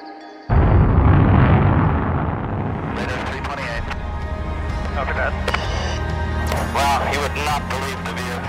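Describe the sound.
The rocket motor of a privately built spaceship ignites with a sudden loud roar, then settles into a sustained rumbling thrust while voices talk over it.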